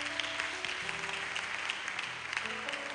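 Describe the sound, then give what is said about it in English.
A church audience claps hands in praise, a steady, dense patter of applause with sustained low notes underneath, and no clear talk over it. “Clap your hands and give him praise.”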